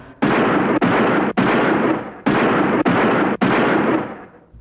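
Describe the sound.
Pistol shots empty a whole magazine: six loud, booming bursts in quick succession, each ringing out before the next abruptly cuts in, the last one fading away slowly.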